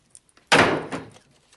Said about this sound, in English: He punches a cupboard.